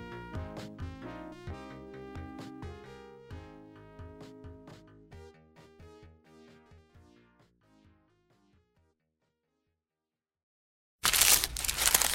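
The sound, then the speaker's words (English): Paper wrapper crinkling as a McDonald's steak, egg and cheese bagel is unwrapped. A short, loud burst of crackling comes at the end, after a melodic music passage fades into silence. “For all you foodies out there, I'm unwrapping a McDonald's steak, egg, and cheese bagel.”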